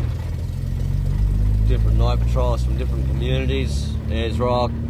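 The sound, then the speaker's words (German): A car engine drones steadily as the vehicle travels a bumpy, red, sandy desert track in central Australia at night on the way to meet a community night patrol. A person talks over the constant low engine noise. “lenkt das Auto über eine holprige, rote, sandige Piste zum Treffpunkt der Night Patrol”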